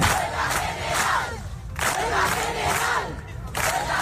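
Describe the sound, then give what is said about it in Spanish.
A crowd chants at an open assembly in Las Palmas de Gran Canaria held by a housing-rights platform, with loud rhythmic phrases repeating in regular surges. “Este es el sonido de la asamblea abierta organizada ayer en Las Palmas de Gran Canaria por la plataforma Derecho al Techo.”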